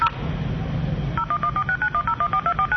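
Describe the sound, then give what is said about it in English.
Rapid DTMF keypad tones dial a telephone number: many short, evenly spaced two-tone beeps follow a stretch of low rumbling noise, each beep clear and moderately loud. “What happens is that it gives the impulse of the telephone number, like if you would dial it on your telephone yourself.”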